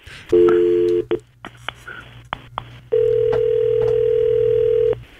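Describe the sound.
A telephone call being dialed: a short steady tone, a few brief beeps and clicks, then a long unbroken ringing tone as the line connects.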